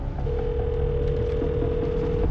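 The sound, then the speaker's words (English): A phone's outgoing ringback tone sounds as a call is placed from a phone in a car's center console: one steady, mid-pitched tone held for about two seconds over a low, constant rumble. “The screen of his phone in the center console lights up. The screen reads, "Calling Clay."”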